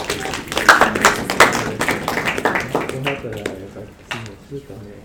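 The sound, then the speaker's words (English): A round of applause from a gathering for everyone involved in an event, a burst of clapping that thins out after a few seconds, with voices talking over it. “So a round of applause for everyone that was involved.”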